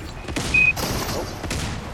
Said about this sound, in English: He just spammed the shotgun. He just went boom, boom.